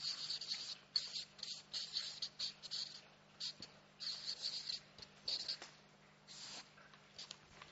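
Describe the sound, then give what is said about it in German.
Writing by hand, soft scratchy strokes in short bursts with small pauses, faint but steady throughout. “Darum schreibe ich da mal noch beschenkt sein.”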